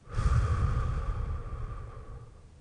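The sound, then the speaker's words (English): A deep breath, heard as one slow, airy exhale that starts strong and gradually fades, with no talk. “deep breaths, breathing in through the nose and out through the mouth. So breathing in through the nose and out through the mouth.”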